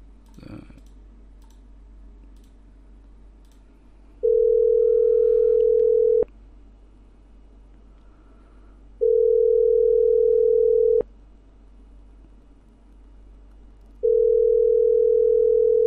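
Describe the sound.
A telephone call is placed: a brief click, then three long, steady ringing tones of even pitch, each about two seconds, separated by pauses, with faint clicks as each tone ends.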